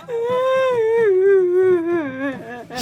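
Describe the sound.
A young girl cries at a farewell in one long, high, wavering wail whose pitch slowly sinks, ending in a brief breathy burst.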